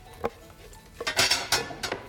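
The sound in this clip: A serving plate is set down and handled with cutlery while food is arranged, giving a series of sharp clinks and knocks of china and metal. The sounds are fairly faint, with no talking.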